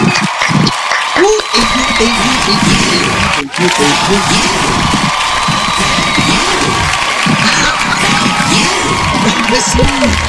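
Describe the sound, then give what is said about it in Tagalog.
An audience cheers and applauds loudly for a host being introduced on a Filipino show. The clapping and shouting run continuously, with whoops, excited voices and a brief dip partway through. “Grabe, guys. Mga kaibigan, palakpakan, Mix Sander Ali!”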